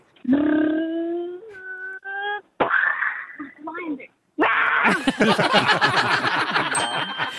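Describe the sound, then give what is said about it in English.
A six-year-old child vocally imitates a lion involved in a car crash: loud wailing, moaning cries and growls broken by short gaps, then a long, harsh, noisy burst mimicking the crash that runs to the end. “can you please be a lion that's involved in a car crash?”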